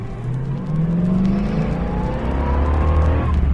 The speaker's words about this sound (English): We're going to take you around the racetrack now. Speeds ranging up to 135 miles an hour.